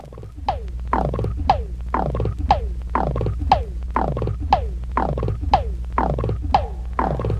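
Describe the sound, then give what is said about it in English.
Popping strokes on a small Indian tabla drum, a long, evenly spaced series of resonant pops, each bending sharply downward in pitch, played in a steady, moderately loud rhythm. “Now that popping sound that you hear was created with this small Indian tabla.”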